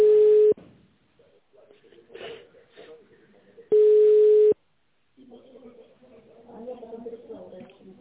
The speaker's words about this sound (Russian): Пожалуйста, подождите. Идет вызов оператора.